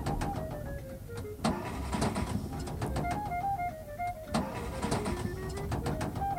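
A car engine fails and stalls during a breakdown, giving a continuous rough, sputtering drone with faltering whines that waver up and down throughout.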